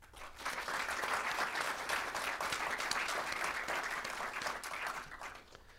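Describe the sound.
Audience applause welcoming speakers to an evening talk on Scorsese, a steady wash of clapping that swells in, holds for several seconds and tapers off at the end.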